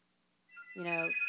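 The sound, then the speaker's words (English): A phone ringing: an electronic ringtone starts partway in, a bright warbling tone with rapid pulsing that grows louder and keeps going to the end. “Sorry, whoa, what's that? That's my phone.”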